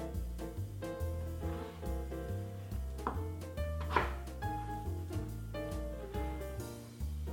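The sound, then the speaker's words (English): A knife slices sweet potatoes into thin rounds for a vegan casserole. Many quick, crisp cuts follow one another steadily under background music with sustained tones. “So I'm going to finish slicing the rest of the sweet potatoes.”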